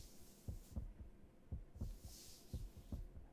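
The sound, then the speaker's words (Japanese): A man's heartbeat, faint low thumps in steady lub-dub pairs roughly once per second, with no other sound. “ゆっくり目を閉じて、こうやって俺の心臓の音を聞いているとだんだん眠くなってくるから”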